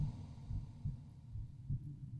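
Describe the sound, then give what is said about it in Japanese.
A heartbeat: soft, low, muffled thumps recurring a few times at a slow, fairly regular pace over a faint steady hum, with no other sounds. “そして私の心臓の音を聞きながら、”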